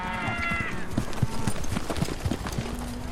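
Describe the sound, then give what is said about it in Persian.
Horse hooves clip-clopping in a steady, even rhythm, many soft knocking steps in a row at moderate loudness. “برد سوار اسبت شو.”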